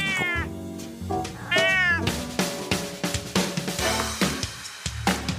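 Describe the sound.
Cat meows played as sound effects: two long, drawn-out cries with sweeping pitch come first, then several shorter meows repeat at a steady pace, loud and clear with no talking.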